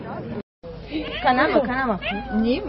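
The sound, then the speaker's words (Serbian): A child's voice imitating a cat's meow during an animal-imitation guessing game: a brief cutout, then drawn-out, wavering mewing cries that slide up and down in pitch. “Ko je to? Maca! Maca!”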